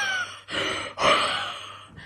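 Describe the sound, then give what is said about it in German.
Odd, raspy breathing from a sleeping dog that is dreaming: a few breathy bursts in quick succession, separated by short pauses, with no talking. “Ich weiß nicht, ob man es hört, aber der Hund schnarcht gerade. Der träumt total. Aber der schnarcht nicht, der atmet ganz komisch.”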